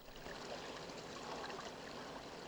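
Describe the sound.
Water flows steadily through a channel in an underground cavern, a faint, continuous rushing and trickling with soft bubbling, unbroken for the whole stretch.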